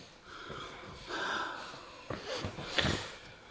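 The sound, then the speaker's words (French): Sharp nasal sniffs and wheezy snorting breaths from a person inhaling ether while seeming asleep. A few faint breathy bursts stand alone, without talk. “il renifle à l'éther.”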